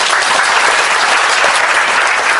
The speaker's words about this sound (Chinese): 我哋俾掌声佢哋。